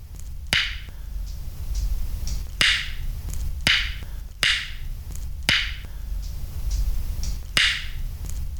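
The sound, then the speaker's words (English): Six sharp tongue clicks made for echolocation, each a brief bright snap. They are spaced unevenly over a low, steady background rumble. “The best way to create those sound reflections is to create a click with your tongue that sounds like this.”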